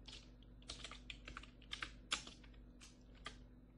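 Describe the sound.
Typing on a newly replaced computer keyboard: many soft, irregular keystroke clicks in uneven bursts, with one sharper tap partway through, over a steady low hum.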